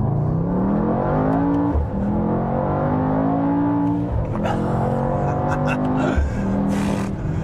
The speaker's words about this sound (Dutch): die test de Mercedes AMG GT 63e.